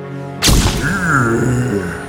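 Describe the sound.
A gas grenade goes off with a sudden loud burst, then a sustained rushing hiss that lingers and slowly eases toward the end.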